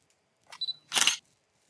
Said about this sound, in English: So just press the button again. Tell me if the shutter is working.